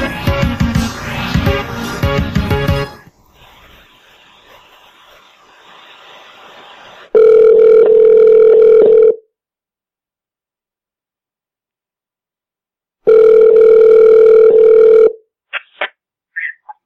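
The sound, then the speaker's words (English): Telephone tones while calling a tire outlet: a short burst of music gives way to two long, steady ringing tones separated by silence, followed by a few faint, brief clicks. “let me call a tire outlet while you send that”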